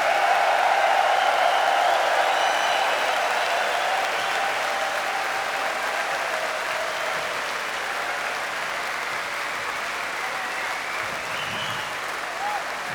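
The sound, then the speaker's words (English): An audience applauds loudly to welcome a percussionist onstage. The dense clapping holds steady and then eases off slightly over about thirteen seconds. “Please put your hands together and give a warm welcome.”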